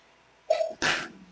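One sneeze: a short catch of breath followed by a loud, sharp burst that quickly dies away, with no talk around it.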